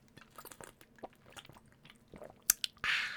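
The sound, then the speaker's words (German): Someone takes a sip of a drink with soft, wet mouth clicks and gulps, ending in a short breathy burst. Faint and close. “Aber warte mal kurz einen Schluck. Will ich die Kehle benetzen.”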